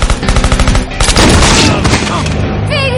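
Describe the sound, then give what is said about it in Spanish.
Loud machine gun fire in a shootout with a submachine gun and shots from a rooftop: rapid bursts of cracking shots mixed with heavy booms, dense at first and then easing into a lower rumble. “Con una metralleta, Mike hiere a Facebook y a otro hombre mientras Barrel corre a esconderse detrás de un coche y Sara dispara desde la azotea.”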